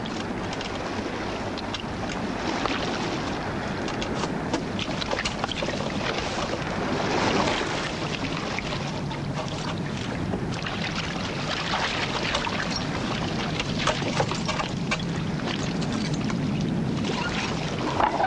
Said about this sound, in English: They climb down to the boat.